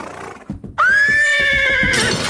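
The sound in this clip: A horse, a pony, gives a long, loud, ringing whinny in a holiday eBay commercial, preceded by a few soft thumps; the high neigh holds steady to the end.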